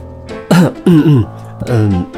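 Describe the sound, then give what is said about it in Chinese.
Muffled coughs with a hand covering the mouth, as performed by a narrator's voice: a few short, low, voiced bursts close together, clear and fairly loud, with no other talk. “李琴书打破了沉默，他用手捂住嘴唇咳嗽了两声”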